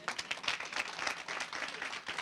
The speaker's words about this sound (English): Give them a hand clap.